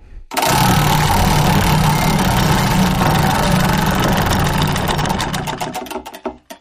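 A name-drawing prize wheel spins round with a loud, dense whirring rattle of rapid clicks that holds steady, then slows into distinct, widening ticks before it stops.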